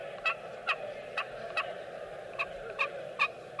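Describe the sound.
A copper friction turkey call produces raspy, fairly deep-pitched yelps, eight in all, sounding as two runs of four short strokes with a brief pause between them. The yelps are faint and stand over a steady low hum.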